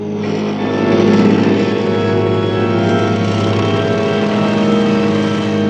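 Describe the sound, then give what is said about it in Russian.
A motorcycle with a sidecar drives off after circling the area in front of an observatory. Its engine makes a loud, continuous, steady drone throughout, with no voices. “Описав дугу по площадке перед обсерваторией, мотоциклист уезжает.”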